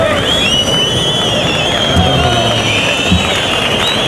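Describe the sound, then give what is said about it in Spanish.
Spectators at a bullfight protesting: a dense, unbroken roar of crowd noise with shouting and thin, sustained high tones running through it, loud throughout. “Bueno, pues el público que se ha dado cuenta. Empieza a protestar”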